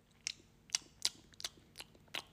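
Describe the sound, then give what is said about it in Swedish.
Crisp crunching of M&M candy being chewed: six sharp, evenly spaced bites, each a short, bright crackle over a quiet background. “En M&M. Och en M&M till. Det var gott.”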